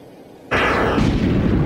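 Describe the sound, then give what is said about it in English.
Sci-fi blast of a solar flare striking a blue planet and knocking it out of orbit: after a brief low hum, a sudden loud explosive roar bursts in and sustains as a dense rumbling wash to the end. “the one aboard Starbug pulls the trigger. A solar flare blasts a blue planet out of orbit.”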